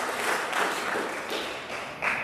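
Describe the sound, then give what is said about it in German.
Applause from an audience greeting a speaker called up to the front, a steady, dense wash of clapping that holds at an even level for the whole stretch, with a brief swell near the end. “Gib mal einen großen Applaus für Alex!”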